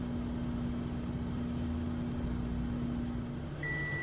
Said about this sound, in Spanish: En una casa, una taza se calienta en un microondas.